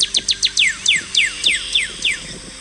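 Cardinal calling: many clear, downward-slurred whistles repeat at a quick, even pace. They are bright and fairly loud over a faint, low background murmur.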